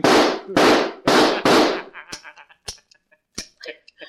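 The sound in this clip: Gunshots from a handgun: four loud, sharp bangs in quick, even succession, followed by a scatter of faint, short clicks and knocks in near silence.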